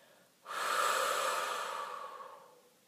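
A single long exhale during a breathing exercise, the shoulders kept down and the belly drawn in. The breathy, airy rush starts abruptly, holds steady, then slowly fades, with no voices over it.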